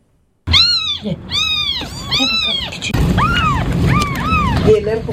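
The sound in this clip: Five orphaned, bottle-fed kittens whose mother died meow insistently, many high, arching cries overlapping in quick succession, loud and almost continuous.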